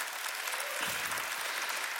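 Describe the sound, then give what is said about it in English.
Applause from a church audience clapping for their pastor: dense, steady clapping that fills the whole stretch at an even, moderate level. “So come on, let's clap it up for Pastor Miles.”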